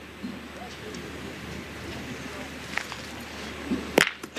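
In a pétanque final, a shot boule strikes another boule with a single sharp, loud metallic crack near the end. The crack stands out against a low, steady background murmur.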